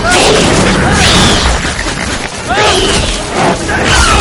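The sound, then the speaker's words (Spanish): Loud booming gunfire and crashing fill a battle scene with soldiers in a 2001 action-fantasy adventure film, a dense, continuous barrage of heavy blasts with no pause. “Corren hacia los disparos.”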